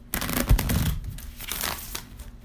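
Cards rustle and shuffle as a trading card game deck is cut, giving a few soft papery bursts and scrapes at a moderate level with no voices.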